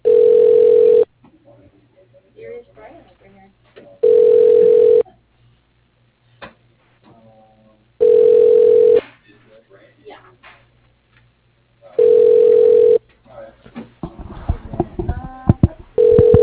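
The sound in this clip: Telephone ringback for a call that goes unanswered: four steady, loud, one-second tones repeating about every four seconds, with people talking in the gaps and livelier voices at the end.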